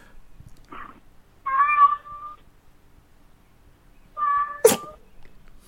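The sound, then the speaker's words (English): A cat meows on a voicemail recording: a faint short cry, then two longer, clear, moderately loud meows with a pause between them, the last one ending in a sharp, brief burst of noise. “Is that a cat? Yeah, that is a cat. Our first feline caller.”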